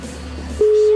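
Telephone ringback tone after dialling a number: a low hum gives way midway to a single steady tone that holds to the end, with no talk.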